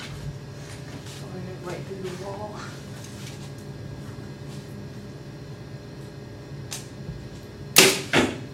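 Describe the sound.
Arrows are shot at a target during archery practice: soft releases over a steady low hum, with people talking, then a loud sharp thwack of an arrow striking near the end.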